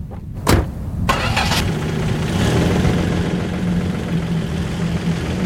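Car starting up, with a short sharp burst and a brief rumble at the start before the engine settles into a steady, even running drone that continues to the end.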